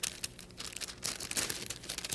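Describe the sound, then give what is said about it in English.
Wax paper crinkles softly as it is pressed over a comb, a faint, continuous papery rustle with small crackles throughout. “See, you just put the wax paper over the comb like this.”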